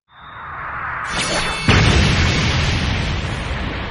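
An explosion boom during a fantasy battle: a broad, rumbling roar builds, then bursts louder partway through and keeps thundering steadily without dying away.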